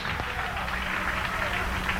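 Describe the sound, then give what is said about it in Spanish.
A church audience applauds in praise to God during a service: steady, dense clapping at a fairly soft level, with no break from start to end. “Gracias, Dios. Dale un aplauso de alabanza al Señor.”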